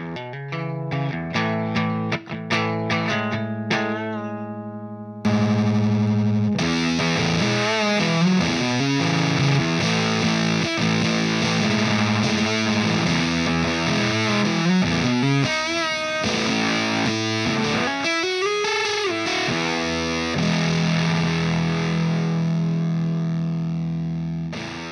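Heavily distorted electric guitar through an effects pedal with switches and two knobs. Ringing picked notes give way after about five seconds to loud, sustained, saturated chords and riffs that carry on steadily to the end.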